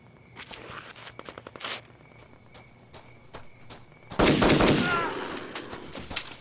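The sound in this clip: Gunshots crack out: a rapid run of sharp, short reports early on, then a much louder, dense blast that lingers and slowly decays, with no talking.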